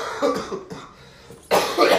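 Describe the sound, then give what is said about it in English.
Coughing from a person who has been sick for about a week: a few harsh, throaty coughs in two short clusters separated by a quiet pause, with no speech. “I still have a cough.”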